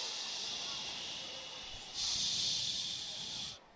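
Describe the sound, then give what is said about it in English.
Shushing from a young audience of 12-14s at a live seminar Q&A: a steady, breathy hiss that suddenly swells much louder for about a second and a half, then cuts off. “Okay, turn to the person next to you and say shh.”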